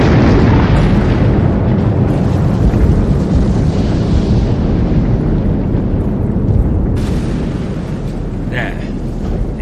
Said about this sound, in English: Not a hyperspatial explosion.